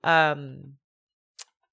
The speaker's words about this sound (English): you're clicking away on the computer.